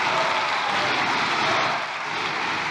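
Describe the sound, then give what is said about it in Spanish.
Applause from PSOE deputies in the Spanish Congress after a parliamentary vote, a dense, steady wash of clapping that holds at an even level throughout with no clear voices. “y aplausos de los diputados del PSOE”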